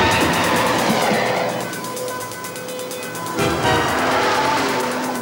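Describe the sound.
Car engine and road noise as a vehicle drives along, a loud, steady roar that eases slightly in the middle and swells again near the end.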